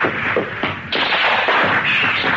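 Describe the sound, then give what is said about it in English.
Rockets being fired, as a radio comedy sound effect: a loud, continuous rushing hiss with several abrupt surges, and no voices. “Normally, if you fire those rockets at a tank, it will go poof.”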